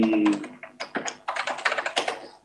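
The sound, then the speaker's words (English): Typing on a computer keyboard: a quick, irregular run of many sharp plastic key clicks, some in fast bursts, with brief pauses between. “Let me type it out here.”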